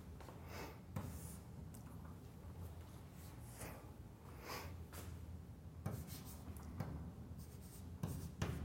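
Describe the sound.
Chalk-like scratching of an equation being written on a board during a lecture on Fourier integrals: many quick rasping strokes and taps, fairly soft and steady, with no voices.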